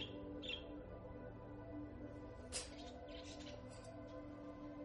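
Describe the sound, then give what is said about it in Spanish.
Three small colorful birds in a white cage chirping: a few faint, short, high tweets scattered over a steady low background hum. “Hay tres pájaros pequeños de coloridas plumas que permanecen vivos.”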